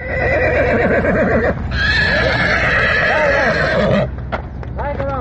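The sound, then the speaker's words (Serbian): Frightened horses whinny loudly while being led back to their stable along a local road after flooding. High, shaky neighs repeat over clip-clopping hooves, with a few more calls near the end. “Tu sudbinu izbjegli su konji jednog gazde iz Mislođina, koje smo sreli na lokalnom putu kada su uplašeni vraćani u štalu.”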